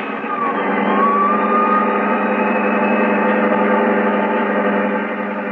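Engine of a getaway car driving off, a loud, continuous droning roar that holds a steady pitch throughout.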